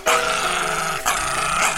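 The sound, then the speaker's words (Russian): A small dog growls in a low, continuous rumble, pausing briefly about halfway through before growling again. “Макан, оставь эту собачку. Зачем ты ее насилуешь?”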